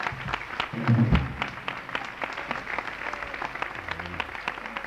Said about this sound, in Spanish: Aplauso al Señor, fuerte.